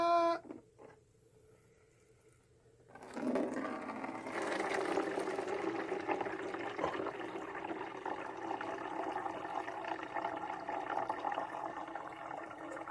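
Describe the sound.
Urine streams into a jug, a steady splashing, trickling flow that begins after a brief quiet stretch and continues evenly for about ten seconds.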